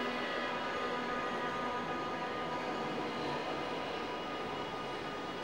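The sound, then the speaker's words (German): A Berlin U-Bahn subway train runs with a steady, dense rumble and a high tonal whine. The sound stays constant and loud throughout. “Die U-Bahn kommt, ich steige ein, der Zug fährt und fährt, es wird dunkel.”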